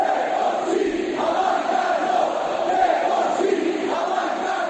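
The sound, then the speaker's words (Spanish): Crowd of football fans protesting in the streets of La Coruña against their club's ownership: a steady, dense roar of many voices that holds at an even level throughout, with no clear breaks. “Este es el sonido de las calles de La Coruña.”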